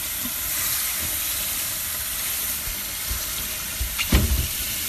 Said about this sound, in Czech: Potom umejome zeleninu.